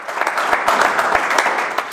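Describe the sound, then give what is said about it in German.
Applause from an audience at a local political party meeting: dense, steady clapping with no pauses and no voices over it. “Da gab es viel Applaus, ne, an der Stelle. Ja. Also mit Christian gibt es immer. Haben wir nicht geschnitten, den Applaus.”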